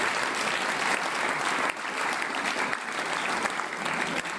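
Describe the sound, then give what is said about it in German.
An audience applauds with dense, continuous clapping that stays loud and even for several seconds, without a break. “Auch für sie noch einen super Applaus, weil sie machen es so.”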